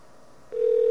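Telephone tone while dialing an 800 information number: a faint hush, then a steady mid-pitched tone cuts in halfway through and holds to the end.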